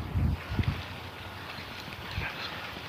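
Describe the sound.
Cold wind blowing outdoors during a winter walk rumbles across the microphone in uneven gusts, with a few stronger buffeting bursts near the start before settling into a steadier rush.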